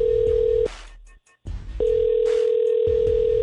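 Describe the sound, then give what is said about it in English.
A telephone call being placed, with a steady ringing tone that stops, leaves a short quiet gap with faint clicks, then sounds again and holds to the end. “So let's call her.”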